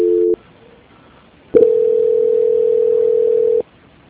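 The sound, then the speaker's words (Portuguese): Telephone line tones after dialing star two to transfer a call: a brief tone cuts off, then after a pause a steady, clear pitched tone holds for about two seconds before stopping abruptly. “Digita o asterisco 2. E depois. Transferência.”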